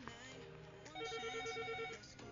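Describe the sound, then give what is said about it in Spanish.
A telephone ringing with an incoming call to a radio station: a quiet, steady electronic ring sustained for about a second, with a softer tone just before it. “Por acá teníamos una llamada, la vamos a contestar a ver qué es lo que dice.”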